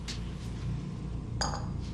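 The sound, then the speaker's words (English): A bowl being set down on a basement floor gives a faint clink or two, with light ceramic-like ringing, over a steady low background hiss. “She sets the bowl down on the floor, then leaves.”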